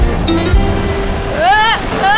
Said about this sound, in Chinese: 我打赌阿克也没有遇到过这么大的风暴。